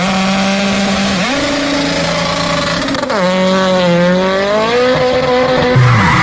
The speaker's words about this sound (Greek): Αμάν, πάει το λάστιχο, πάει και η ζάντα στη μέση του δρόμου.